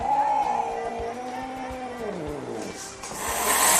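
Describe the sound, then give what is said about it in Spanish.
A house cat making a strange, eerie vocal sound: a drawn-out droning tone that slides lower in pitch near the end, over a rough, noisy background. “Luego, si en casa tienes un gato que hace esto”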